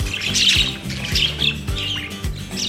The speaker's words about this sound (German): Welches Tier suchen wir? Ich sag es dir. Es ist der Wellensittich.